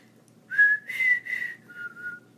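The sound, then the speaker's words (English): Someone whistles with a dry mouth, producing a few short, breathy tonal notes with small pitch changes. The final note is lower, and the whistling is fairly faint and alone. “I was trying to whistle, my mouth is dry.”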